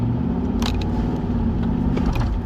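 A car on the move gives a steady, low engine and road rumble that stays even throughout, with a few faint ticks and scrapes and no voices.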